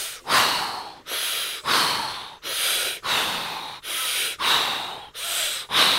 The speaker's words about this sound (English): Let's do 2 more, okay? Deep breath in.